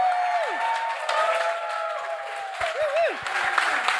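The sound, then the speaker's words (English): A live show audience applauds. The many hands blend into a steady wash of sound, and sliding tonal sounds run over it. “Please give it up for yourselves and for us and for Alexandra Haddow.”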